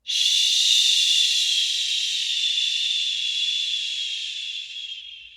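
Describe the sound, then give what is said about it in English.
A long exhale shaped into a steady, bright "shh" hiss during a breathing exercise. It holds evenly for about five seconds, then tapers off, with no talking. “And then exhale with that shh.”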